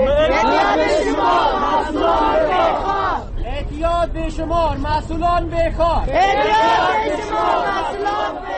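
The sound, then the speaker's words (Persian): Dozens of drug addicts and civil society activists gathered in Kabul's Pul-e Artal area raise a loud, massed shout, many voices chanting together continuously, with a short dip in intensity midway before the chant swells again. “این صدای ده ها فرد معتاد و اعضای جامعه مدنی است که در منطقه پل”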